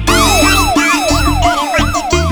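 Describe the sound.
The siren, or hooter, of a car with a red beacon: a loud, rapid, repeating wail, each cycle sweeping quickly up and down in pitch, several cycles in close succession.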